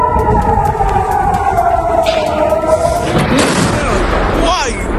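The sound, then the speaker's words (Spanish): Explosions from a barrage of Iranian missiles with cluster warheads over Israel: a loud, continuous rumble carries a steady tonal layer, then breaks midway into a broad crackling burst of blasts that spreads and fades. “Acabas de escuchar el tipo de armas que utiliza el régimen iraní. Se trata de misiles que llevan ojivas de racimo diseñadas para abrirse antes de caer y dispersar proyectiles”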